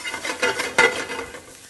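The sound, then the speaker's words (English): Stirring and sizzling of black beans with serrano and garlic cooking in a pan over medium-high heat: soft scraping with two brief louder bursts in the middle over a steady hiss. “All right, let's turn this up on medium-high heat. And I want to cook this down.”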